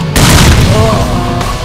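Grenade explosion in a war video game: a loud, abrupt boom that bursts in and rolls into a heavy, sustained rumble before slowly easing off.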